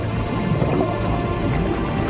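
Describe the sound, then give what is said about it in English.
Water bubbling and gurgling as a swimmer dives under, a dense, steady wash of liquid sound that holds at an even level throughout, with no voices. “As the water bubbles up above Will's head, he takes a deep breath and starts to swim downwards.”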